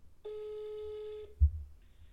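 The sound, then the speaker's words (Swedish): A single steady telephone ringback tone lasts about one second while a call to a friend connects, followed by a short low thump and quiet. “Ja, jag ska ringa en vän. Och den här vännen ja, har jag känt i flera år nu. Jag ska ringa upp henne här.”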